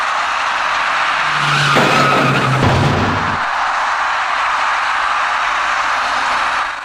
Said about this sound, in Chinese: 一辆粉色小客车跟一位电动自行车的骑车人发生了严重相撞后，一起甩进路口里面。